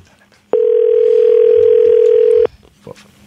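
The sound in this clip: Ringback tone of an outgoing telephone call ringing on the line, a single steady electronic tone held for about two seconds, loud and alone, followed by faint background noise.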